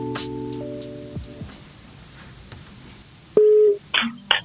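Electronic tones of a telephone call being placed: faint steady tones, then a loud sustained tone followed by a few short, sharp beeps.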